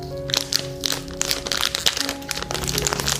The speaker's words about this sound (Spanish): Aquí estoy yo con esta barra de chocolate, leyendo los ingredientes que tiene esta barra de chocolate. Pero yo no puedo saber lo que sabe este chocolate hasta que no lo pruebo, ¿sí? Hasta que yo no lo abro